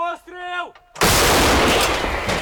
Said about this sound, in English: his unit's munitions feed a weapon twice his age, the D-20 howitzer.